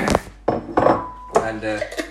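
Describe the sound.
Crockery clatters as a bowl is grabbed for porridge, a few sharp knocks and clinks under a person talking.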